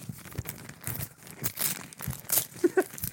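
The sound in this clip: A wrapped present, a small thin square, is opened up close: soft crinkling and tearing of wrapping paper in many quick, uneven rustles, with a few sharper crackles near the end.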